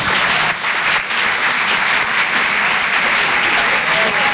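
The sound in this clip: Applause from a theatre audience in Paris welcoming a comedian to the stage, dense steady clapping from many hands that stays loud throughout without a pause.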